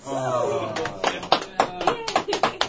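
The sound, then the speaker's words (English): Sporadic hand claps, sharp separate smacks that begin about a second in and repeat several times at an uneven pace, mixed in with people talking. “Why are you clapping?”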